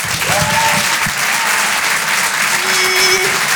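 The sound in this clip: Loud, dense applause from a comedy club audience at the Apollo Théâtre in Paris as a stand-up comedian is welcomed to the stage, steady and unbroken for the whole stretch.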